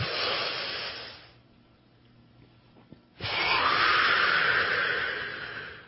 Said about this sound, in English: I want you to just take a deep breath that goes from your toes all the way up to your head.